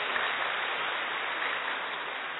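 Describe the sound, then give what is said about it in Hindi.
Crowd clapping at a spiritual talk, the audience urged to clap for themselves; a dense, even wash of many hands, steady and unbroken from start to finish, with no single claps standing out. “किसके लिए ताली? ताली किसके लिए? ताली आपको अपने लिए बजानी है।”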